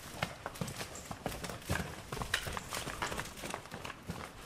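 A very large cow of about 900 kilos walks out slowly on its hooves, making faint, irregular clopping steps across the whole stretch.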